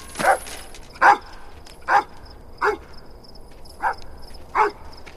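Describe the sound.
An agitated dog barks into the night, six sharp, mid-pitched barks spaced at a fairly even, steady pace over a faint background hum.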